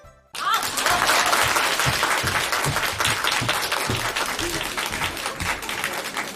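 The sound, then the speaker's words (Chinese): Audience applause at a live crosstalk comedy show marking a 20th anniversary, a dense, loud wash of clapping that starts abruptly after a brief silence and holds steady throughout. “感谢朋友们的掌声鼓励， 谢谢大家。”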